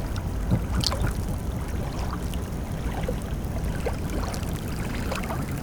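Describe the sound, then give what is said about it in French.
Calm ocean water washes over a beach shaped by the tides, a soft, steady rush with faint trickling splashes and no strong breaking waves. “Écoutez-le. L'océan aussi peut être paisible.”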